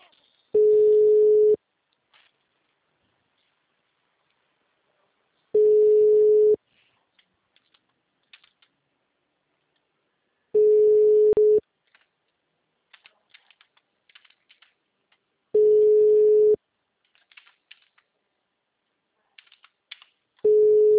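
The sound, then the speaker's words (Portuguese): Telephone tones as a number is dialed over and over and found busy: bursts of a single steady tone, each about a second long, return roughly every five seconds, with faint clicks in the quiet gaps between. “É, vai discando umas 10 vezes aí.”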